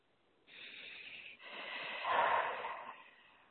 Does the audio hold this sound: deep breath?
yes